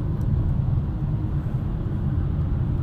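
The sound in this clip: A car driving on a highway produces a steady, low road rumble and engine drone, dense and even in level throughout with no talk over it.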